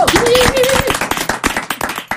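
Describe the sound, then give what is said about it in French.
Audience applause with crisp individual claps that thin out toward the end, while a voice speaks over the opening. “Applaudissez-vous.”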